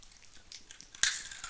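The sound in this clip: Crunchy chewing of small, dry bread pieces: soft, irregular chewing gives way to one sharp, loud crunch, followed by a fainter crackling tail.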